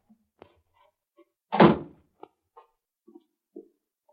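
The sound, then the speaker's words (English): A cellar door at the back of a house is opened: a few light clicks and knocks, then one heavy wooden thunk, followed by scattered small taps. “That's the cellar door. Open it, Bucky.”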